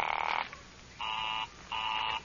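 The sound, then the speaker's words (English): A telephone busy signal on a call placed through an operator: three evenly spaced pulses of a steady two-toned buzzing tone, each about half a second long with short silent gaps between them. The tone is fairly faint and there is no talking. “Oh, it's busy again. Operator, the line is busy.”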